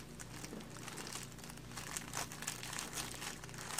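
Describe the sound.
Wax-like paper crinkles as fabric is pinned down onto it, a faint, continuous rustle dotted with many small crackles and sharper crisp snaps.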